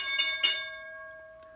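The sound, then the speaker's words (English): A stock market opening bell rings out with a quick pair of bright strikes, then one sustained metallic tone that hangs and slowly fades. “we just opened up higher just now. You heard the bell”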